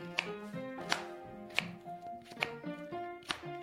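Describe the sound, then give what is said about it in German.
A knife chops fruit into small pieces for alcohol-free cocktails, giving five sharp, separate chops spaced fairly evenly over a steady tonal music background. “wir schneiden die Früchte klein, damit wir sie am Ende gut mixen können.”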